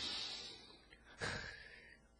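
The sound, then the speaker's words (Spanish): A deep breath drawn in during a guided breathing exercise: a long, airy rush of air with a sharper, stronger intake partway through. No talking is heard. “Respira conmigo, aspira.”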